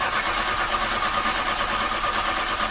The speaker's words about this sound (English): When your car sounds like this,